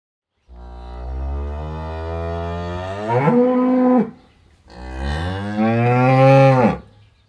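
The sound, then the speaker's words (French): A bull lows twice in long, deep, drawn-out moos, each call holding steady and then swelling louder toward its end, with a short pause between them and no other sounds. “I can hear a bull. J'entends un taureau.”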